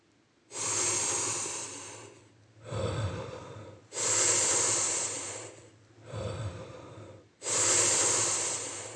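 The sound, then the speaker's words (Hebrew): Five long, deep breaths in a guided breathing exercise focused on the heart. Bright, hissing breaths alternate with lower, heavier airy ones, each separated by a brief pause. “אז בואו נתחיל לנשום ללב, והסיבוב הזה מוקדש ללב, אז הנשימות”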